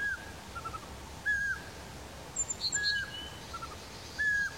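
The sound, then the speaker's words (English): A pygmy owl gives a few short, clear whistled notes at one steady pitch, spaced about a second apart. Brief higher chirps from another bird sound in the middle of the call. “Here is some examples of bird sounds: pygmy owl,”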